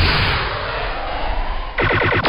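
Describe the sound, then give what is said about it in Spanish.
A quick burst of several sharp gunshots fires in rapid succession, coming out of a steady, loud roaring noise near the end. “¿Qué son esos disparos?”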